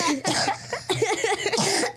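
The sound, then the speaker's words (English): Coughing from a person during a family word game, a few harsh, rough bursts in quick succession, loud, with no clear speech between them. “You coughed, Mama, you coughed.”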